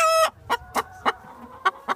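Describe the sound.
Chickens clucking and a rooster crowing: a brief, cut-off crowing note opens, then five short, sharp clucks follow at uneven intervals, alone, with no talk.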